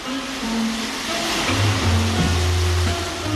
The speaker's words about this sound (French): La mer est calme, l'allure constante, à l'horizon, les lumières de Conakry.